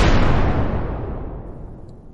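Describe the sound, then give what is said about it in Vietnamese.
A deep, roaring rumble, as if the surrounding space were shaking and about to shatter. It starts loud and broad, then slowly fades over about two seconds, with no voices. “Không gian xung quanh ầm ầm chấn động như sắp vỡ vụn.”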